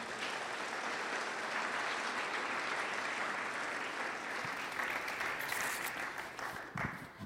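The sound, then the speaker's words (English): Applause from an audience welcoming guests at an evening event, a steady wash of many hands clapping that holds even throughout and thins slightly near the end. “Can we give Mohan a hand?”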